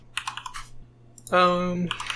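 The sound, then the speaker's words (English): Fingers type on a computer keyboard in a quick run of light clacks. A voice sounds briefly in the middle, then a few more keystrokes follow. “So while I type in these hybrid symbols”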